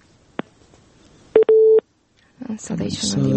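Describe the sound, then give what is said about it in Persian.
A phone line tone follows a dropped call on a live call-in line: a click, then a short beep and a longer steady beep, a moment of silence, and then a voice speaking. “تماسشان قطع شده شنانده قبلی ما بود”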